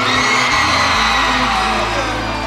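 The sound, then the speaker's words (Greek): An audience at a live show screams on request, a loud, sustained mass of shrieks, whoops and yells that never breaks. “Για ρίξτε μια τσίριδα να ακούσω.”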